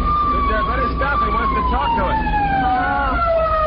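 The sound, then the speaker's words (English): A police car siren wails while chasing a car, a loud, steady tone that slowly slides downward in pitch through the whole clip, with rougher sounds layered beneath it. “What's that? Cops. What? A policeman's chasing us.”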